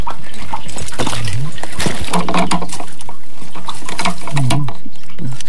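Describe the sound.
Water splashing and sloshing in a full water container, a loud, dense, continuous patter with brief voices heard faintly among the splashes.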